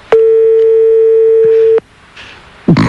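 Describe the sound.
A telephone line tone sounds while a call is being placed: one loud, steady, single-pitched tone holds for nearly two seconds and cuts off sharply. Faint clicks and soft noise follow.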